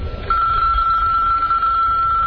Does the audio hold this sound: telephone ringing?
yes